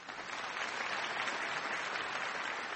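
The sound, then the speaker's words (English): An audience applauding at a live Intelligence Squared U.S. debate, with dense, even clapping sustained from start to finish. “and then I'm going to raise my hand for a round of applause and imagine commercials are playing somewhere.”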